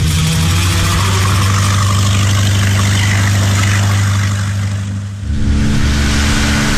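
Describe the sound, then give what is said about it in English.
Boat engine running: a loud, steady low rumbling drone fills the whole stretch with no voices. Its level dips briefly near the end before the tone shifts slightly and carries on. “Oh, come on! Come on! Why is this boat so slow?”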